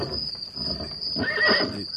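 Horse neighing: one whinny rises partway through and fades within about a second, over softer snorting sounds and a faint steady high hum.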